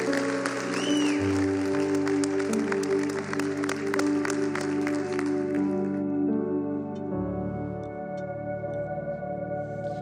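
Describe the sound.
Audience applause welcoming a pastor, a steady patter of clapping over sustained keyboard chords. The clapping fades after about six seconds while the music continues.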